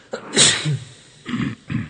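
A person sneezes once, a sharp, breathy burst, followed by two shorter, softer noisy puffs. Nothing else is heard between them.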